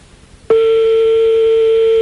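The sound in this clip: A telephone line tone during a call: a steady single-pitched tone that starts abruptly and holds without a break, clear and alone.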